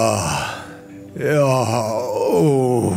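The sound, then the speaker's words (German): A person in a sauna gives deep, drawn-out groans and sighs with each breath. Two long, voiced, moaning exhalations are heard alone, and the second one rises and wavers. “Bei ihm wird jeder Atemzug von einem tiefen, langgezogenen Seufzen und Stöhnen begleitet.”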